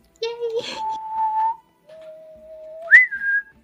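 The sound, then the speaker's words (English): Human whistling in a whistled language: two phrases of sustained, clear tones separated by a short pause, the second ending with a sharp jump up to a higher held note. “We called it whistle tongue. Oh, I want to learn. Oh, okay. And then sits down, and starts teaching her how to say some things on whistle tongue.”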